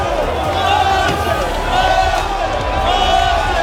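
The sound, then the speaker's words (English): Crowd cheering at an open-top bus victory parade in Dublin, a loud, continuous roar of voices with shouting and babble layered over a low rumble, swelling slightly partway through and staying dense throughout. “There's been fireworks and pink smoke, and everyone is cheering.”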